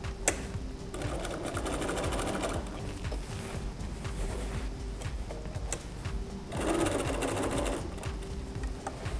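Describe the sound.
A sewing machine stitches a fabric bag pocket on an apron, its motor whirring and needle clattering in a fast, continuous rattle that surges louder in a couple of spots.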